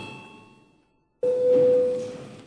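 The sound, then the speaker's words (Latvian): A parliament chamber bell rung before a vote: the fading tail of one ring, a brief silence, then a new tone that starts abruptly and holds steady for under a second over a broad buzzing ring. “Lūdzu zvanu, balsosim par 417.”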